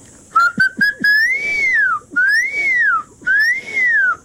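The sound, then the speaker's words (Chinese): A man whistles an imitation of a crested serpent eagle calling in flight: three long, clear whistles that each rise and then fall in pitch, preceded by a few short clicks. “我这边有一些的大关鸠，然后它飞过去了，飞的时候呢，就有时候都会有这样子的叫声呢。”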